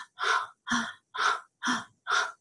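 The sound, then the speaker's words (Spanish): Rhythmic breathing in a guided breathing exercise: five full, loud, airy breaths follow the tail of an earlier one. Each lasts about a third of a second, and brief silences separate them in an even pattern. “Y empieza a inhalar y exhalar, inhala y exhala.”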